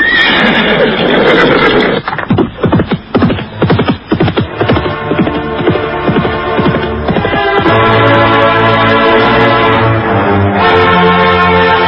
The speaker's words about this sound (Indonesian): Malam terus merangkak menuju sang Dewa Fajar ketika Arya Kamandanu berkuda meninggalkan desa Menguntur.